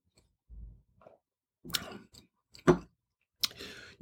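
Sipping and tasting red wine: a few short, soft slurps and wet mouth clicks, one sharper click standing out, separated by brief silences, with no talking.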